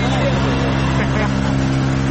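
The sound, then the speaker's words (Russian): Loud, steady engine drone from a soldiers' boat crossing the Dnieper river, a constant low hum with strong tonal harmonics and no breaks. “Бойцы показали видео. На нем они пересекают Днепр на лодке. Вот как это выглядит.”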